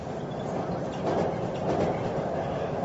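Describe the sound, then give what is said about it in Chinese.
Steady rumble of a moving train heading west toward Xinjiang in 1966, a continuous broad roar with faint rhythmic clatter and no voices. “董翠华16岁，第一次踏上西去的列车。”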